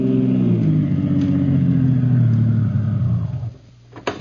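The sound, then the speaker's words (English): A taxi cab's engine hums steadily, then slows as the cab pulls up in front of an all-night diner in a warehouse district. The rumble eases downward in pitch and drops away near the end, followed by a brief quiet and a short sound. “in the cab of Harry the Heck and pulls up in front of an all-night diner in the warehouse district.”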